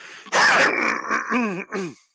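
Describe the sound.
A heavy smoker who goes through four packs a day clears his throat, a raspy, groaning hack followed by a few strained voiced pulls, heard alone.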